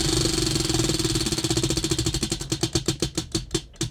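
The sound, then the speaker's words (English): A spinning wheel ticks as it turns, starting as a rapid run of clicks that gradually slow and spread apart as the wheel winds down, clear and fairly loud. “I've got the microphone next to the wheel, and we will spin.”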